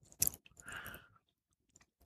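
Crunchy chewing and wet mouth noises as someone eats chocolate alongside a small sip of rum. A sharp bite burst comes first, then a longer stretch of smacking, followed by a few faint clicks, with no talk.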